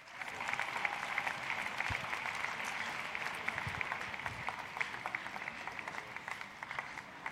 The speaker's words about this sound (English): Dr. Tete, come over. Come and join me here. Give Dr. Tete a big hand.